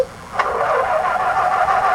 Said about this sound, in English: I think he got the engine fixed. Way to go, Gumby.